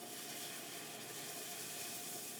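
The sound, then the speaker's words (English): Milk slowly poured into a hot, nutty roux for a bechamel gives a steady, dense sizzling hiss that holds even and loud throughout, with no voices. “So now I'm going to start slowly pouring in my milk,”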